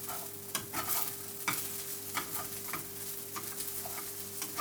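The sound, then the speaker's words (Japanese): Rice with butter being stirred in a pan: a quiet series of scraping, clicking strokes against the pan over a faint, steady sizzle. “もうご飯これでいいんじゃないかな。まだバターが全体にいってないけどね。”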